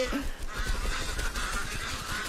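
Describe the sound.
Geese honk while someone rides on them, over a steady, noisy, rushing background that lasts throughout.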